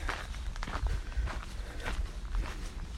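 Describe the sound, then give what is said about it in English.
Footsteps on the long downhill stretch of an outdoor walk, just after a steep section: a steady run of many crunchy, scuffing steps at an even pace, fairly loud and with no voices. “finished the steep bit of the walk and I'm on the long downhill.”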